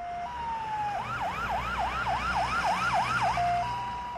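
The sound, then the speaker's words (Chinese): An ambulance siren opens with a steady tone, then breaks into many rapid rising-and-falling yelps before returning to a steady tone. It is loud and sustained throughout, over a low background rumble. “救护车。”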